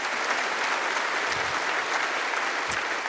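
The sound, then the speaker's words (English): A church audience claps to welcome another church joining by video, producing dense, steady applause that holds at an even level throughout without any pause. “So put your hands together and let's welcome them watching us on video.”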